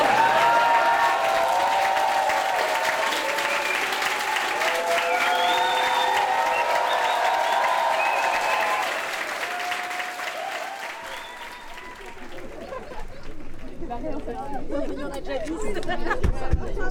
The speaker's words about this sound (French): Encore quelques applaudissements, ça vous dit?